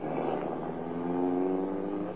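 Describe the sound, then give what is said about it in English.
A fast-moving car drives away down the road with a steady, low, humming engine drone that swells slightly midway before easing. “watching the lights of a fast-moving car disappear down the road in the direction of Twin Rivers.”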